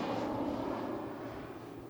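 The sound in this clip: A jet airplane rumbling overhead in a video game, a dense, steady low roar that holds throughout with no voices over it.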